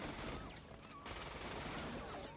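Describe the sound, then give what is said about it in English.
Uzi fire in a video game, a sustained, dense rattle of rapid shots that runs nearly unbroken throughout and stays faint and even in level. “This guy started off with a fan. He let them get close enough. Took the Uzi, shot them all up.”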